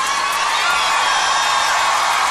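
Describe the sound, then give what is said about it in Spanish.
Applause and cheering from a large audience at the Auditorio Nacional, a loud, unbroken roar of clapping and crowd noise that stays level from start to finish. “los dejo que gocen sus aplausos en el Auditorio Nacional.”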